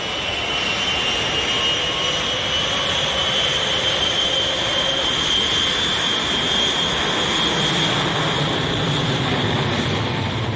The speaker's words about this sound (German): Mit der vollbesetzten Boeing 707, die da soeben auf dem Frankfurter Flughafen von der Piste abgehoben hat, fliegen 134 Passagiere ohne Zwischenlandung nach New York.